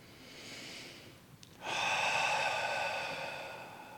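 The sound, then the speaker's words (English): A deep cleansing breath drawn in and let out during a guided meditation, soft and airy at first, then swelling into a fuller, louder rush of breath that holds steady to the end. “So maybe take one of those nice cleansing inhales and exhales.”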